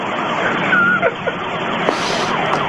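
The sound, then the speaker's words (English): A siren used as a street sound effect holds a steady, loud wail over dense traffic-like noise for the whole clip. “God, that fucking goddamn thing. I hate the sound of that thing, man. That goddamn siren. Gotta get a better street sound than that.”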